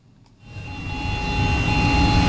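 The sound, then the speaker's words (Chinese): Heavy engine drone from two high-horsepower tractors pulling electric precision seeders during crop sowing on a farm. A steady low rumble with a thin tonal whine starts faint, then swells after half a second into a continuous, loud roar with no talk. “在北大荒集团鹤山农场第七管理区，两台大马力机车牵引着电控精量播种机抢抓农时，加紧进行播种作业。”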